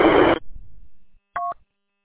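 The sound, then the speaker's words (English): Roger beep from a GMRS two-way radio: a loud burst of hissing static cuts off, and after a short gap comes one brief, bright two-tone electronic beep. “Maybe turn the Roger beep off on your radio.”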